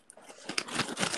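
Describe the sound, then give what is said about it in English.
Goldfish crackers being crunched: a short run of crisp, crackly chewing bites, faint at first and growing louder over about a second, with a sharp crunch at the end. “That's the sound of Goldfish.”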